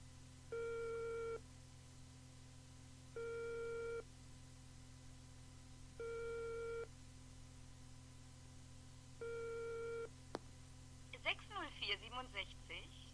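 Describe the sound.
Telephone ringing tone after a number is dialed: four long, steady beeps at even intervals over a low hum, then a click and a voice answering.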